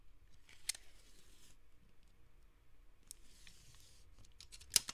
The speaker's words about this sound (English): Oh, is it a tape measurer? It is a tape measurer.